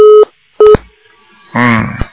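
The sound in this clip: Two short electronic telephone tones, like a busy signal after a call was hung up, sound as steady buzzing beeps before a voice starts speaking.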